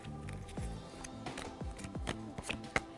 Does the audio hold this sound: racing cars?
no